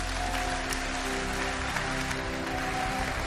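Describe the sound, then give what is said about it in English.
Steady applause from an audience welcoming a guest preacher at a church gathering, a dense, even clatter of many hands that holds at the same level throughout. “Put your hands together. Welcome Joel Holm.”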